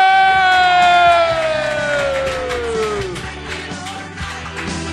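Audience cheering and applauding as a comedian is introduced and walks on stage: a steady, loud crowd roar with a long high cry sliding downward in pitch over the first three seconds.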